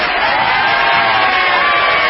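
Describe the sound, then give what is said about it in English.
A studio audience cheers loudly, with high whoops and shouts blended into a continuous, dense roar that holds steady throughout. “Is that her studio audience? It is, yeah. Don't you love them?”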